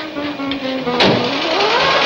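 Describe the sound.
A car engine runs with a steady, broad hum and one brief, sharper burst about midway. No voices are heard over it.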